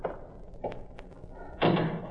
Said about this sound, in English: I'll close this door.